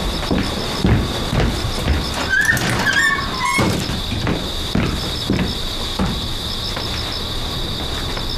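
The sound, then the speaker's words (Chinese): A door being closed: a squeaky, high creak in the middle among several dull knocks, over a constant thin high whine. “把门关上。”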